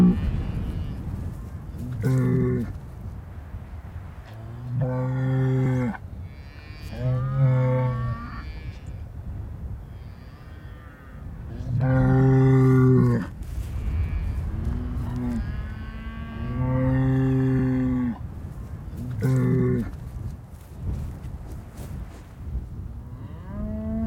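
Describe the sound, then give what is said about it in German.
Cattle low repeatedly, a bull, ox or steer giving several deep, loud, drawn-out moos with short pauses between them. “Na, so ein Stier, so ein Rind, so ein Ochse halt.”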